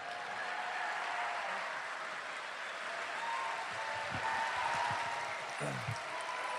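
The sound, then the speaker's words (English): Sustained applause from an audience welcoming former California governor Jerry Brown, a steady wash of clapping held at one level, with a voice coming in near the end. “I take that as cheering for the ecosystem”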